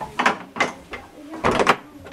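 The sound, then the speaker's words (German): A classic split kitchen door in a centuries-old house being worked, giving a few sharp wooden knocks and clattering thumps, spaced irregularly, with no voices. “Das ist die klassische Küchenschnacktüre, die geteilt ist. Ja, das hat den Vorteil, dass man eben die untere Ebene zumachen kann.”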